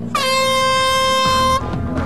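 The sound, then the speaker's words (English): A klaxon sounds to start an off-road race, one loud, sustained blast of about a second and a half, steady in pitch, cutting off sharply over a low background rumble that continues after it. “Go on the sound of the klaxon. 3, 2, 1.”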